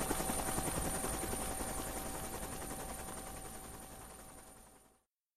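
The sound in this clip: A helicopter flies away over treetops: its rotor chops in a steady, dense rhythm, fading gradually over about five seconds before stopping abruptly.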